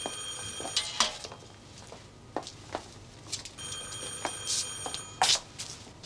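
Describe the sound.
A telephone rings in two bursts of bright, high, trilling bell tone, fairly faint, with scattered clicks and knocks in between.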